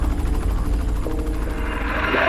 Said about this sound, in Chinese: 刚刚运送我们来这边的这个直升机队啊，现在重新在跑道上集结